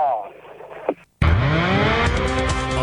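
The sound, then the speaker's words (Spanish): A race car engine fires up at the start of a race, bursting in after a brief silence with a loud harmonic roar that climbs in pitch and holds steady. A faint voice is heard before it. “Enciende Rovera, ya encendió también William Bull, el motor en marcha para Joaquín Cortina, que larga adelante”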